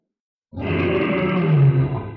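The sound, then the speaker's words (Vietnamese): A huge creature lets out a loud, sustained roar that begins abruptly and holds steady to the end, with a deep, growling low tone throughout. “Một tiếng gầm thét thật lớn, xuyên thấu qua giới bích mà truyền tới”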